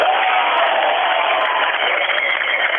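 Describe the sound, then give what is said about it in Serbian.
A football crowd in a stadium in Lučani roars during a Metalac match against Crvena zvezda. The cheering and applause are broad and continuous, holding loud and steady. “Ovi aplauzi, sve govore”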